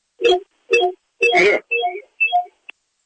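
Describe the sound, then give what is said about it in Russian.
A radio plays during a phone call, giving five short, bright, tonal bursts like snatches of voice or music, separated by brief silences and followed by a single tiny click. “Так, братцы, выключаем радио.”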